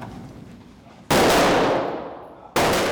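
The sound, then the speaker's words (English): Two loud gunshots ring out during police team shooting practice at a training range. Each is a sudden sharp crack followed by a long, fading reverberant tail, breaking over a low, steady background rumble. “Right now, the teams are about to start their shooting practice. Go ahead and load! It's impossible to have a conversation at the shooting range.”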